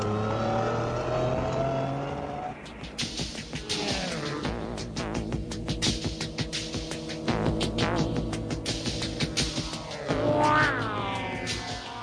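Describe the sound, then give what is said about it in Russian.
A small truck drives uphill, rattling and grinding as it goes. Its engine note shifts and labours under a dense, pulsing clatter that runs on without a break, and no one speaks. “Они влезли в кабину, и грузовичок с треском и скрежетом поехал вверх по дороге.”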